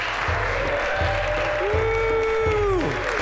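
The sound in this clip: Audience applause welcomes the host at an interfaith summit, a dense, steady wash of clapping that stays loud and even for the whole stretch.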